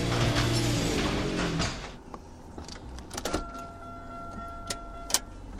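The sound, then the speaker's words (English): A Buick car is shifted into gear while its emergency brake is still engaged: loud mechanical whirring fades after about two seconds, followed by scattered soft clicks and a steady electronic tone. “That noise means I'm in the Buick. That noise means I shifted into gear before disengaging the emergency brake.”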